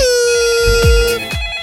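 Telephone ring tone as a caller gets through to a radio show: one loud sustained electronic tone, with a couple of falling swoosh-like sweeps near its end and no voices.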